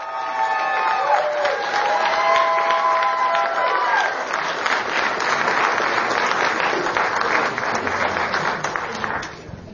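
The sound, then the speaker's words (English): An audience applauds as candidates walk out for a debate, with a little cheering mixed in. The clapping stays loud and continuous for nearly ten seconds, then cuts off sharply at the end. “You can go ahead and clap here in a second as we bring the candidates out.”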